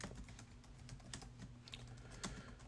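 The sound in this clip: Keyboard typing while searching for something, with many quick, faint, irregular key clicks in a steady stream and no talking.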